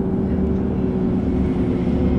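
Steady bus engine drone from the Bus Simulator video game as the bus speeds up onto the motorway, a continuous rumbling hum with low tonal lines and no pauses.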